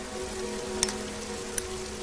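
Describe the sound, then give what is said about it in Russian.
Steady rain pouring onto a train platform, a constant soft hiss that holds even throughout, with two brief sharp ticks standing out above the wash. “Льет дождь. Перрон.”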